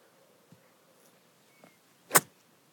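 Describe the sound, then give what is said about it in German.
Golf practice swing with a seven iron from the rough, just left of the fairway: one quick, sharp swish after near silence, preceded by a few faint ticks. “Das war der Probeschwung. Und jetzt geht's los.”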